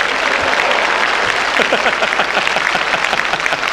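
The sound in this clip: Applause from a crowd, a thick wash of clapping that holds steady throughout, with some voices mixed in underneath.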